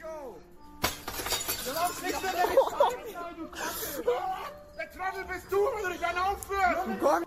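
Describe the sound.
Glass shatters as a ground-floor window is slammed shut with great force and its pane breaks, a sharp crash with clinking shards, while people talk throughout.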